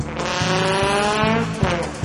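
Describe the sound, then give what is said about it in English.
Engine of a small French Peugeot car revving as it gets back into gear, a loud, steady harmonic drone broken by a few brief dips and surges. “You almost ran into that little Peugeot there, man. Little French car. He's holding his horn at you. Wait a second. He's getting it back in gear again.”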